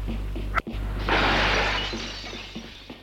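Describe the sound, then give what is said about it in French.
A glass window pane is smashed with fists: one sharp, bright crash that rings on as a hissing spray of shards and slowly fades, over a low, steady hum. “d'un geste surhumain de ses deux poings, il a brisé la vitre.”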